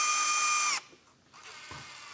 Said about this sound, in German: Und jetzt schraube ich hier zwei Schrauben oben und unten rein, da wo wir auch vorhin schon unsere Löcher gebohrt haben.